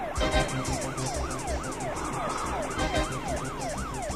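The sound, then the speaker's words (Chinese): A police car siren wails in a fast, regular up-and-down pattern, loud and continuous over the low rumble of a moving vehicle. “你说后面的警车不是冲着我们来的吧？ 我猜那辆警车上有沈西，还有八零三。”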